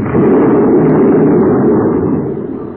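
A red-hot, melting spaceship blowing up in a loud, sustained explosion, a dense rumbling blast that holds steady before fading over the final half second.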